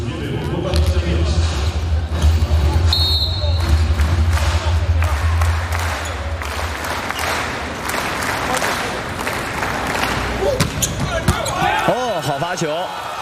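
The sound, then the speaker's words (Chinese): A substitute serves in a men's volleyball match involving China, the ball striking with sharp thuds amid crowd noise, applause and clapping, while commentators talk throughout. “杨宝奇上来替补发球”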